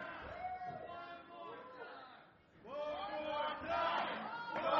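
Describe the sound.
A crowd in the top rows shouts at an event, many loud overlapping voices yelling together, dipping briefly midway before swelling back even louder.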